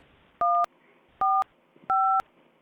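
Telephone keypad dialing to patch a caller through: three crisp dual-tone DTMF beeps, each lasting roughly a quarter second, evenly spaced and clear over a faint hiss.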